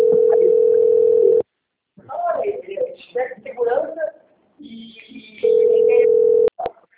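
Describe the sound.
Telephone tone from an automatic dialer call: a steady tone plays, then people talk, and the tone returns briefly before cutting off with a couple of clicks.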